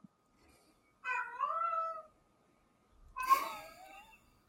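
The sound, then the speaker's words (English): A cat meows for water, giving two drawn-out, wavering meows separated by a short pause. Both are faint, with the second rougher and more strained, and no other sounds are present. “That's the cat. He wants water.”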